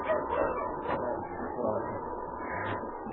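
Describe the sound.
Sled dogs resting on a Yukon trail give short yips and whimpers, several sharp high cries rising over a steady, muffled lower murmur.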